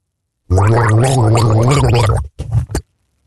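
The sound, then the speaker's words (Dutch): A man gargles a tune, a bubbling, pitched gurgle that holds a wavering melody for nearly two seconds, then breaks into a few short, choppy gurgling bursts before stopping. “Dus kan jij raden welke tune hij gorgelt?”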